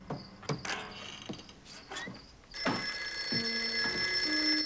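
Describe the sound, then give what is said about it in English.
An indoor telephone bell starts ringing partway through, loud and steady with a shrill, continuous jangle, after a few soft knocks and rustles. “He's dozing in the chair when he's woken by the telephone.”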